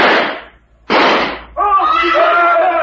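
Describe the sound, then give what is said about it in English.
Two gunshots ring out about a second apart, each a loud, sharp bang with a brief tail, followed by a person speaking. “The two shots.”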